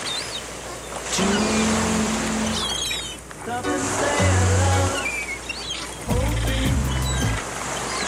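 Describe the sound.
Rushing sea waves form a steady wash, with a few very short snippets of sung songs mixed briefly into the surf.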